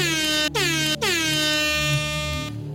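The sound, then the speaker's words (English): Loud air horn blasts during a lively show: two short, brassy honks in quick succession, then a third held much longer before cutting off, each a bright, buzzing tone rich in harmonics. “Was that air horn saying, you saying yes? Is that another yes? Is it two air horns for no?”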